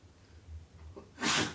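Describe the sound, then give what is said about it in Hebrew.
A single sneeze bursts out sharply after a moment of near quiet, a brief breathy explosion that is the only prominent sound. “לבריאות.”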